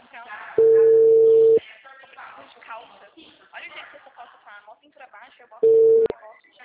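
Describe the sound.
Telephone busy tone after a dropped call: a steady, flat electronic tone sounds for about a second, gives way to talk, then returns briefly at the end.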